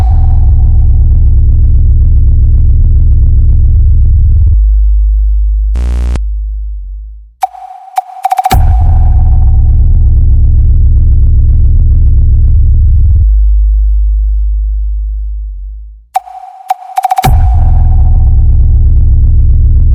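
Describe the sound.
Deep bass test tone for a sound check: a loud, sustained low hum that drops out briefly twice, with short clicks and glitches around the breaks, then resumes.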